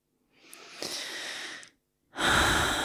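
A slow breath drawn in and then let out, soft and airy, the inhale lasting over a second before a brief pause and a fuller exhale, with no talking.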